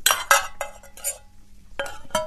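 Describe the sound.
Food being served onto plates, with dishes and cutlery clinking: a few bright, irregular clinks and scrapes separated by quieter gaps.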